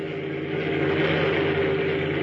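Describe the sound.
A car engine drives past around a curve on a dark road, a steady, fairly loud motor hum that holds an even level for the whole stretch.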